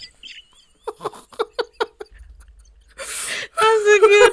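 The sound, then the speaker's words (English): A voice imitates a chubby boy throwing a tantrum in a meme: a run of short, rhythmic vocal bursts, then a breathy rush and a loud, high wailing cry at the end. “There's one little black boy. He's kind of chubby. And he's like throwing a tantrum. And he's like...”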